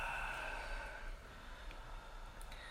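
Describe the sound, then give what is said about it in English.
A deep breath taken during a guided meditation, soft and breathy, fuller in the first second and then trailing off into a faint, quiet exhale. “Why don't we take a nice deep breath together, in the nose, out the mouth.”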